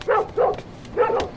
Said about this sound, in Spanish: ya te he dicho que no es cortés ladrar a las lindas visitas.